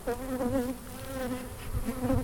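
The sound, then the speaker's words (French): Bees buzzing around a beehive make a steady, continuous droning hum with a wavering pitch. It holds a fairly even level throughout, with no talking. “Je pose comme ça, c'est pour éviter de, tu vois, c'est pour éviter d'écraser les abeilles.”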